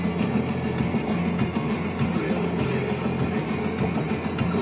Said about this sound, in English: everyone's driving the speed limit on the Golden Gate Bridge, and it's weird.